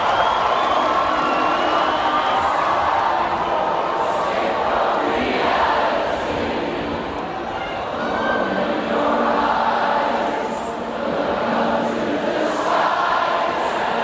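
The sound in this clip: A pop concert crowd sings together in chorus, forming a thick, continuous roar of many voices. It stays loud throughout, with a couple of brief dips in level.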